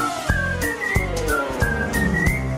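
Someone whistles a tune in a comic Italian song, the melody gliding between bright held notes over backing music with regular low thumps.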